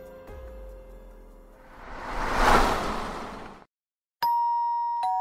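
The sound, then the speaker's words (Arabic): A doorbell ringing at an apartment door: a soft swelling whoosh rises and fades, a short silence follows, then two bright, sustained chime notes ring out in turn, clear and fairly loud. “في الخامسة عصرا كنت قد انتهيت من غذائي حين دق جرس الباب.”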